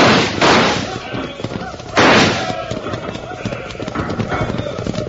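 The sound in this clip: Horses gallop with riders in the saddle during a rifle fight on horseback: a rapid, continuous clatter of hooves, broken by two sharp, loud bursts.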